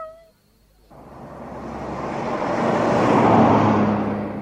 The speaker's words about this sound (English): I'll drive you down.